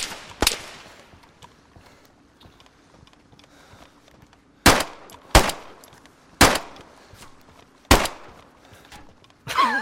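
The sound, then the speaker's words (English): Gunshots from a warning shot in an online multiplayer game: one sharp crack, a pause, then five more loud reports at uneven spacing over a faint, quiet background. “That was just a warning shot.”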